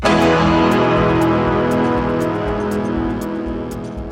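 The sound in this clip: A single loud E major piano chord closes a rock song, struck once and left to ring with a slowly fading sustain over about four seconds.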